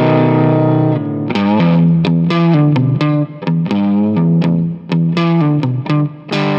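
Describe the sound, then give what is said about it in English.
Distorted electric guitar played through an amplifier, a loud run of plucked notes and sustained chords with a shimmering chorus effect, the phrases briefly dropping out between bursts. “It's not the quietest amplifier you'll ever own, it's not the most versatile amplifier you'll ever own, but it sounds better than it has any right to, even when I play it.”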